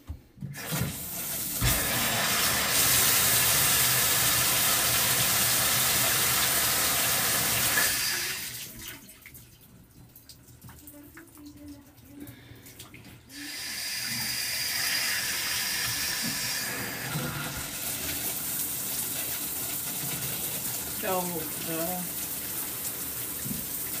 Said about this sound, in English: So, now, let's hop into the shower.